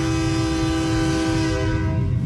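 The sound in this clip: Train horn blowing in one long, unbroken blast, a loud, steady chord of layered tones holding through the whole stretch over a low rumble.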